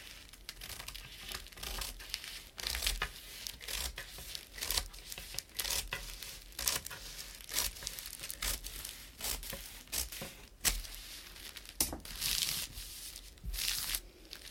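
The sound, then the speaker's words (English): Paper is cut along a marked halfway line, producing many crisp, crinkly snips and rustles in an irregular rhythm, sharp and close but fairly quiet overall. “So, we'll mark that out nicely. And then I'm just going to cut along the halfway point.”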